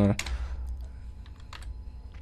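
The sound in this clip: Typing on a computer keyboard produces a few scattered, fairly faint key clicks spread across the moment over a low steady background hum.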